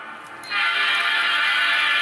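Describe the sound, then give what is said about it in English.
Train sounds played from a train sounds app: a steady, loud rushing rumble of a moving train that starts abruptly about half a second in and carries on evenly, with no voices. “And what you are hearing is train sound.”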